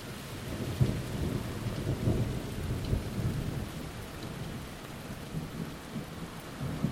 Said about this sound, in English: not as easy as you'd think trying to capture the rolling thunder